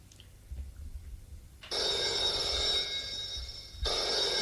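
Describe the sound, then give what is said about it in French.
A telephone rings as a bright, steady, continuous ring that starts partway in and holds to the end, briefly shifting near the end, with no voices over it. “Le téléphone a sonné. Il a décroché.”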